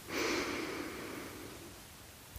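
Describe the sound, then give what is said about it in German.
A deep breath drawn in during a guided relaxation exercise: one long, soft, airy inhalation that swells quickly, then slowly thins out, heard alone without talk. “Atme noch einmal tief ein.”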